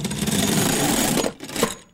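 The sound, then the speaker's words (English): A shutter-closing sound effect: a continuous mechanical rattle runs for about a second, then breaks into a few brief knocks and ends on a sharp click. “What's that? It's the Prime Minister's shutter closing.”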